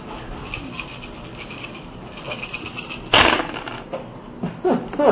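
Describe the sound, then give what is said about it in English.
Eight six-sided dice are rolled together for a damage roll in a Star Wars Saga Edition tabletop role-playing game. A sharp burst of clattering comes first, then a few scattered clicks as the dice settle, with no talk. “Roll damage. 8d6. Here's 8d6.”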